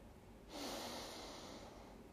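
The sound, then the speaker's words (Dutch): One slow inhale through the nose into the belly during a breathing exercise: a soft, airy hiss that lasts about a second and a half, faint and steady, with no talk. “Je ademt in door je neus naar je buik en je ademt uit door je mond, waarbij je zeven pufjes maakt.”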